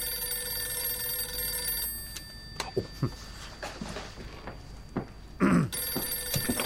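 Telephone ringing with an incoming call: steady electronic ring tones hold for about two seconds, break off amid a few scattered knocks and clicks, then return near the end.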